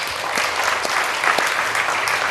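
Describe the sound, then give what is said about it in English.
A church audience applauds, dense and continuous clapping from many hands that stays even and fairly loud for the whole clip, with no voices standing out. “So give yourself a round of applause for that.”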